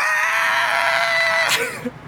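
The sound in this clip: A voice imitates the scream of a pinball machine's villain character when the ball drops into the trap door, a sustained, loud, high-pitched cry held steady for about a second and a half before breaking off abruptly.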